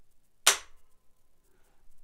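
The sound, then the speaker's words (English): A factory rifle trigger with noticeable creep breaks with a single sharp, crisp click, standing alone against near silence before and after. “Now, what I'm going to show you here is a factory trigger. I'm going to show you how long the trigger pull is. Now, right here, I'm going to pull, and you're going to see there's a lot of creep right there”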